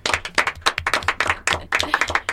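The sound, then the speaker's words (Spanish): Brief applause from a small group, hand claps rattling quickly and irregularly for a couple of seconds with no pause. “Un aplauso para Lean.”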